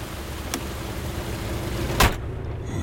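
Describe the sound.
A car door slams once over the steady low rumble of a running engine as someone climbs in, with a faint click earlier; no one speaks.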